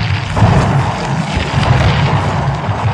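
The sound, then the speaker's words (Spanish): Accumulated gas explodes and sets a building on fire in a radio drama effect: a loud, dense, low rumbling roar holds steadily for about three seconds with no distinct separate blasts. “El gas acumulado estalla y lentamente en todos los pisos del edificio provoca un incendio y el pánico de Hasil”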